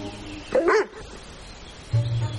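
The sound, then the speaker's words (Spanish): A dog barks once, sharply, over a low steady hiss, and a lower, longer vocal sound from it follows near the end. “El perro la contempla desde la distancia.”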